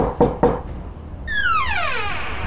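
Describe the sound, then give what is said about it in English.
Two sharp knocks on a bedroom door, followed after a pause by a long, drawn-out creak that slides steadily downward in pitch. “Oh, we've got to wake him. Better knock harder.”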